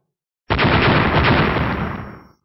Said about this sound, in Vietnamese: Liên tiếp tiếng nổ vang lên